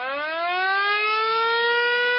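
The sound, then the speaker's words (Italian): An air-raid alarm siren wails as one long, loud, sustained tone, its pitch rising slightly at the start and then holding level, with no voices. “perché combinazione suona la sirena dell'allarme antiaereo,”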